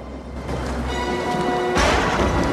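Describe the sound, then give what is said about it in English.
Thunderstorm rain on a narrow mountain pass: a dense, steady hiss of rain that swells into a louder rumbling crash near the end. “the four of them thread their way along a narrow mountain pass as a thunderstorm rages around them.”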